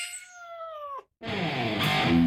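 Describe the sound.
A cat meows twice at a cat café: first a clear, tonal meow, then after a brief silence a louder, rougher, more drawn-out meow.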